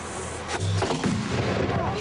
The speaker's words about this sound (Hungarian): Ezzel az ágyúdörgéssel kezdődött a felújított Sárospataki vár ünnepélyes átadása